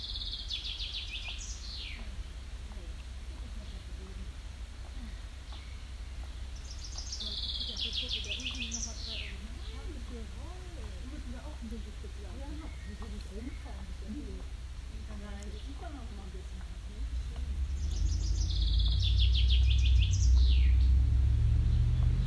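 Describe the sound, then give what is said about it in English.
Swallows nesting under a roof beside a restaurant in Lauenburg give brief, high, twittering chirps in a few separate bursts. A steady background carries faint voices, and a low rumble grows louder near the end. “Standing on the stair right next to Hoover's restaurant, there are swallows nesting underneath the roof.”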